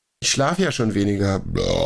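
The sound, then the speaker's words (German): A loud, drawn-out voiced burp, low and gravelly with a wavering pitch, lasting over a second before giving way to a rougher, noisier tail. “Das siehst du exakt auf der Spur, wo der Rülpser ist.”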